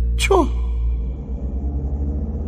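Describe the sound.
A car engine rumbling as three people get in: a steady, low idle rumble with a faint pulsing throb throughout.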